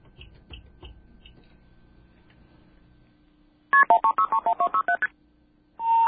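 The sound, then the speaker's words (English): MF tones from an old automated telephone intercept system: a rapid string of short, clipped two-tone beeps, loud and evenly spaced. A few faint clicks come before them, and a steady tone begins at the end. “what you heard before that is very interesting. Those are MF tones. That is, according to this reader, an old automated intercept system”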